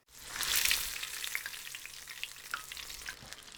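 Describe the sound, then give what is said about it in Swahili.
Tofu pieces frying in hot oil in a pan. A loud opening burst of sizzling settles into a steady, softer crackle with scattered sharp pops, and no voices are heard. “Rudia mchakato huu na ukaange vipande vingine vya tofu vilivyosalia.”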